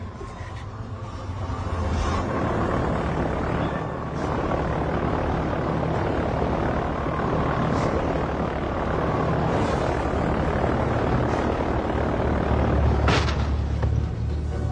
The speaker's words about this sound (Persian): تو این هوا هواپیما میتونه بلند بشه؟